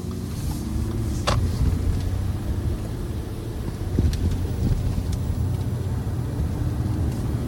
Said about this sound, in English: So I drove there.